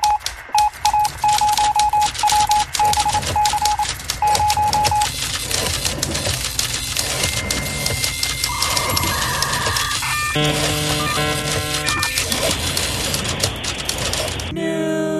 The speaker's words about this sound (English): hit that news sound effect, baby.